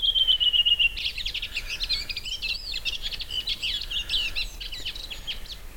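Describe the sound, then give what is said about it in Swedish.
Redwing thrush song in a regional dialect: a short run of repeated high, clear whistled notes that slides slightly downward, then a long, rapid, scratchy twittering phrase, all from one bird and with no voices. “En av rödvingetrastens alla dialekter.”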